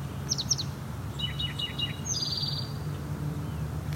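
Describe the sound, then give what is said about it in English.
An eastern towhee sings a variant song closer to a spotted towhee's: a few high, short chirps, then a run of clear whistled notes, ending in a fast, buzzy trill over a steady low hum. “And our eastern towhee has changed songs. Something that's actually closer to the spotted towhee song, but this is not a spotted towhee.”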